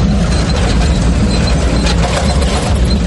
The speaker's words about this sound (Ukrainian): Це дуже рідкісна самохідна артилерійська установка. Французький Цезар на 8 колесах виграбе звідусіль. Цезар поїхав на роботу, зараз піднімає вугілля і несеться.